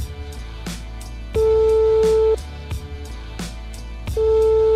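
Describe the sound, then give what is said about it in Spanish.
A telephone line tone sounds while a call is being dialed, two long steady tones separated by a pause, over rhythmic background music with a regular beat. “Mira, estoy marcando. ¡Joder, estoy marcando!”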